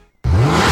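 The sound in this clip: A car engine revs hard, bursting in loudly after a brief silence, its throaty roar climbing in pitch as it accelerates.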